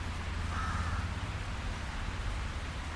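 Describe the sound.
Crow cawing outdoors, a short raspy call early on standing out above a steady low rumble, with the rest of the stretch left to the background hum.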